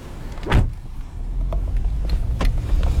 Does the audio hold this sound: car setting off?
yes